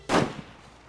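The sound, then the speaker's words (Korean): A single gunshot inside a house: one sharp, loud bang that dies away quickly and is followed by quiet. “그때 갑자기 집안에서 총성이 울렸다.”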